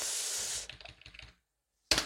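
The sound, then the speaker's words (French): Typing a runner's surname on a computer keyboard: a short run of quick, light keystrokes follows an opening stretch of steady noise, then silence and one final sharp burst. “le temps de taper Chassagne.”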